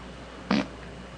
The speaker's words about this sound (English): Wait. I have to fart.